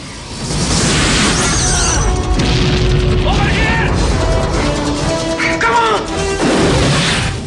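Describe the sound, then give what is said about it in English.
Explosions rock a compound in the Rambo action film, a continuous barrage of loud booms, crashes and shattering debris that barely lets up. “He runs through camp as explosions erupt around them.”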